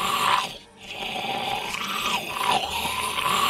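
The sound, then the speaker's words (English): A human voice imitates zombie growls, giving a harsh, raspy, breathy snarl that is loud and nearly continuous. It breaks off briefly in one short pause before resuming. “The Walking Dead zombies sound like this.”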